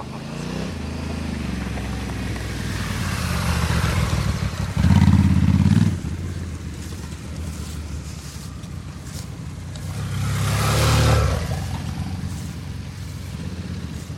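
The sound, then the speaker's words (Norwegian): Motorcycle engines, a Honda and a BMW F800 GS, rumble as the bikes arrive, a steady low drone that swells loudly twice, once midway and again near the end, with no talk. “Der kommer de. Espen har ikke moderskip i dag, da. Han kjører jo Honda.”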